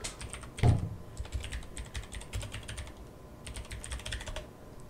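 Computer keyboard typing as a Google search is entered, a rapid run of many crisp keystrokes with one heavier thump early on, steady and moderately loud throughout.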